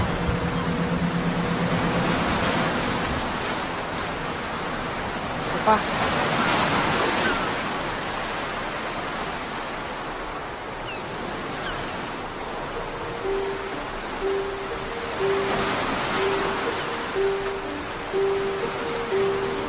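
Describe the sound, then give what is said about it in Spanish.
Waves wash onto a beach by the sea in daytime. A continuous hissing surf swells and recedes in slow surges, loudest around the middle and again near the end. “De día, en la playa.”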